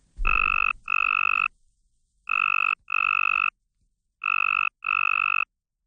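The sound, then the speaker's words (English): Two simulated tree frog calls, one attractive and one less attractive, play at once as six buzzy, tonal bursts grouped in three pairs and separated by silences. “So one attractive frog call and one less attractive frog call together sound like this.”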